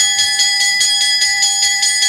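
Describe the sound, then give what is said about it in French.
A school bell rings in a 1963 French pop song about the end of the school year: bright, rapid metallic strikes repeat in a steady rhythm over a sustained tone, with no singing. “La cloche a sonné”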